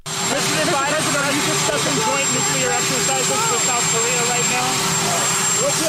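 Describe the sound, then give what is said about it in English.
Presidential helicopter landing on the South Lawn of the White House: a continuous loud turbine roar with a steady high whine, under talk. “Getting off Marine One after landing on the South Lawn of the White House, U.S. President Joe Biden”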